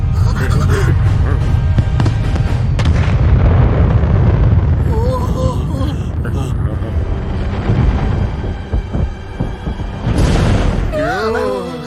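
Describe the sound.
Missile bomb explosion destroying a mushroom land: a loud, sustained, rumbling roar with crackling bursts, heavy at first and then thinning, with voices and other tonal sounds mixed in.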